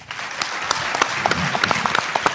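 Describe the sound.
An audience applauds after a speech at a book presentation, with dense, steady clapping and sharper individual claps poking through, loud and without talk.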